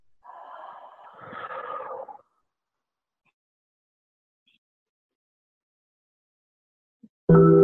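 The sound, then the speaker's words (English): A single long exhale during a guided breathing exercise, a steady breathy rush lasting about two seconds, followed by a long silence before a voice starts at the very end. “Exhale and turn. When you inhale and turn back forward, inhale”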